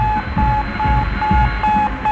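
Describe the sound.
A satellite's radio signal from Earth orbit beeps in a steady, even rhythm of short mid-pitched tones with brief gaps between them, over a bed of noisy static.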